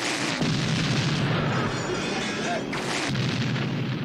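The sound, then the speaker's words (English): Explosions tear a kingdom to pieces in a film battle scene: a dense, continuous roar of booming blasts and deep rumble stays loud throughout, with no clearly separate hits. “And that's my kingdom being blasted to pieces because they killed Clytus.”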